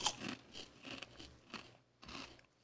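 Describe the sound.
Crunching and chewing of a whole chili-cheese flavored corn snack taken in one mouthful, heard as several quiet, crackly bursts at a loose chewing rhythm, with no talk.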